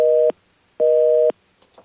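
Telephone busy signal after a caller's line dropped: two steady, evenly spaced tone bursts, each about half a second long, with clear silence between them.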